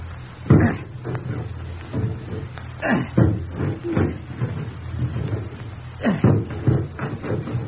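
Heavy axe blows chopping through the locked door to a room, many loud, sharp wooden impacts at an irregular rhythm, some close together and others spaced apart by pauses.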